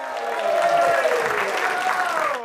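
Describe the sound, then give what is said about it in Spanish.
An audience applauds a comedian with dense, sustained clapping that stays steady and full before trailing off at the very end. “Y seguimos directamente con el próximo comediante. Para él también un aplauso de 12 sobre 10.”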